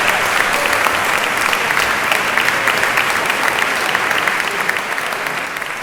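Audience applause at a live music performance, dense, continuous clapping that stays loud and even throughout, easing off slightly near the end.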